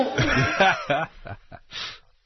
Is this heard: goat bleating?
yes